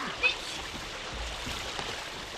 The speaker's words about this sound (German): Ganz unerwartet, der Wolkenbruch. Mein Gott, der Regen ist ja schlimm.